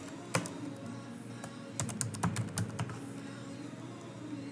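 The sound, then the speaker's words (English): Keystrokes on a computer keyboard as a place name is typed into a real estate website's search: a single tap, then a quick burst of several sharp clicks over a faint steady background hum. “And if we look up and we type in Frisco, Texas, let me see if I can properly type here.”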